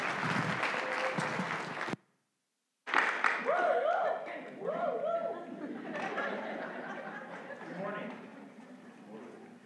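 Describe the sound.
An audience applauds to welcome a speaker, clapping with laughter and scattered chatter mixed in. A sudden brief silence breaks the sound early on, then the clapping and voices resume and gradually thin out.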